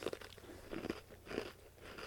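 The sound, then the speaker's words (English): Someone bites into and chews a hard Oreo cookie that tastes of lard, producing a few faint, dry crunches in irregular bursts with quieter chewing between them. “The cookie is so hard. It's not what you expect from an Oreo.”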